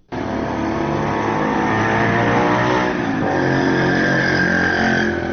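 Loud motorcycle engines fitted with modified, altered exhausts roar in a town street in Asadabad, a harsh, steady, sustained drone that stays at full volume for about five seconds after a sudden start, with no voices.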